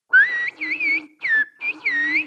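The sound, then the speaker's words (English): Human whistling of a Turkish phrase meaning the Black Sea is beautiful, in whistled Turkish: four clear, high-pitched bursts with gliding rises and falls in pitch, separated by short silent gaps, with nothing else alongside. “Which in whistled Turkish would be, I could say, the Black Sea is beautiful.”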